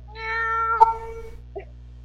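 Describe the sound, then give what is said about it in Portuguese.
A cat meows once in a drawn-out, clear, mid-pitched cry, followed by a brief, fainter sound, with no talk. “não acredito que o gato vem aqui faz um tempo e vocês não dão comida pro bichano”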